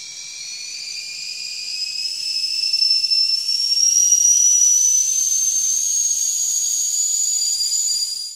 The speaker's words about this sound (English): The sound you just heard was a recording of a whistling kettle.